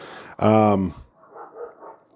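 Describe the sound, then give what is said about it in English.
Dogs bark outside, heard through open windows in springtime: a single loud, deep bark lasting about half a second, followed by a faint voice. “There are my dogs ruining my podcast. Once again, they're outside.”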